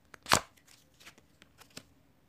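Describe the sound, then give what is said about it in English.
Shuffling a deck of playing cards: one loud riffling burst early on, followed by several lighter, scattered snaps and clicks, with no talk. “So let's get to shuffling the cards. Here we go.”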